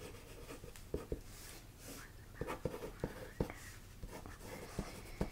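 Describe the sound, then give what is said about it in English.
A pen scratches out handwritten notes during a mock nursing exam, recording heart rate and blood pressure. Soft strokes mix with sharp, irregular taps, under faint whispering. “write this down really quick if that's okay.”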